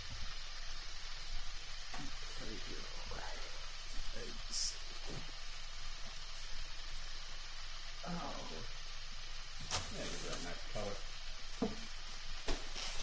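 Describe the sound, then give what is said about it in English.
Gravy sizzles and hisses in a pan as flour is gradually sprinkled in and stirred. A constant soft frying hiss carries scattered scraping strokes while people talk quietly over it. “We should say gradually adding flour, because at a certain point it said do that, and I'm sprinkling flour.”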